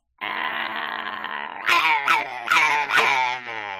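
Dogs growl from under a chair, starting with a sustained, rumbling, harmonic snarl that then breaks into a few louder, sharper growling bursts, with no voices heard.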